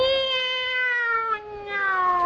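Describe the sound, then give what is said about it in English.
A tomcat's drawn-out meow: a single sustained, nasal yowl lasting over two seconds, with a gently falling pitch, a slight waver midway and fairly even loudness throughout. “Meow. Now, what kind of expense can a tomcat have?”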